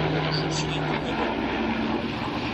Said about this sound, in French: Attends, il y a un avion qui passe.